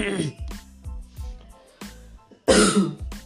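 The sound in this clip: Rough coughs and throat clearing from an irritated, scratchy throat, a few harsh bursts with the loudest coming near the end.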